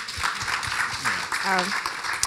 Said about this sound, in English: You guys should please clap.